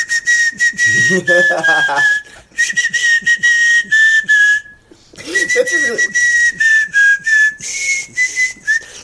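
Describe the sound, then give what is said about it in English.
Someone whistles an imitation of an 8-year-old child playing the recorder: clear, high, slightly wavering notes in a simple tune, split into two long phrases by a short pause, with faint mouth and breath noises beneath. “you do a shockingly good impression of like an 8-year old playing recorder.”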